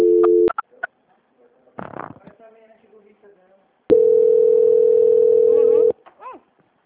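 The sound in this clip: Telephone line tone during a call transfer: a short steady tone opens the line, then brief voices and rustle, then a longer loud, flat, mid-pitched tone holds for about two seconds before cutting off.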